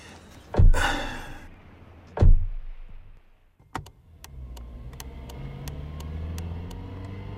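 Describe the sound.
A car sets off along dark streets at night. Two heavy thumps come first, then an engine starts and settles into a low, steady rumble that runs to the end, with faint ticking on top.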